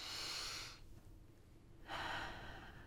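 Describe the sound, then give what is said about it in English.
A deep, calming breath: two long, airy breath sounds separated by a short pause, soft and unaccompanied by speech. “Thinking about the concept of breathing, right? When you pause and you go like,”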